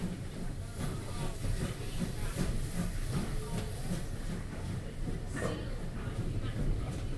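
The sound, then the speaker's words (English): A steam train sets off along the line, giving a steady, loud rolling rumble with a broad hiss of steam that continues throughout without a break. “We're off now. You can see a lot of people flock to the steam trains when they first came out.”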